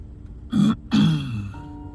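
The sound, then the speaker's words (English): A man clears his throat in two rough bursts: a short first rasp, a brief pause, then a longer, louder one that trails off into a low rumble. “cleared his throat”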